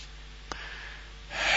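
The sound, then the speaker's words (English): A deep inhale with sniffing as someone breathes in a person's perfume and hair scent. A brief soft click comes first, then a breathy intake that swells louder through the final moments. “And inhale deeply.”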